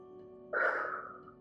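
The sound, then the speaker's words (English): One deep inhale through the nose during a guided relaxation exercise: a soft, breathy rush that begins abruptly after a short quiet stretch and then tapers off over less than a second. “take a big breath in through your nose.”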